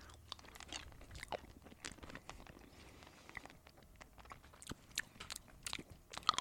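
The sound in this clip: Biting and chewing on a caramel-like candy that is thought to be melty, giving many irregular crunchy and sticky clicks in a steady run with no talking.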